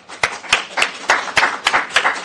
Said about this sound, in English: So I would like to applaud them.